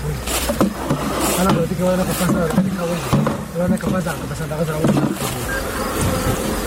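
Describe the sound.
Honeybees buzz steadily at a bee farm in Kandahar's Dand district. The dense, continuous hum of many insects holds an even loudness throughout, with a few stronger swells.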